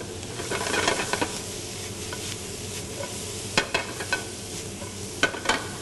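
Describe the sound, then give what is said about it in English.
Green beans stir-frying with salt in a pan with garlic and ginger, a dense, constant sizzle broken by several sharp scrapes and clinks of stirring. “I'm gonna add my green beans. Okay, just starting to color and turn translucent. Add my green beans, half a teaspoon of salt,”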